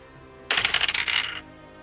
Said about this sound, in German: Mit einem W20 würfeln, bitte.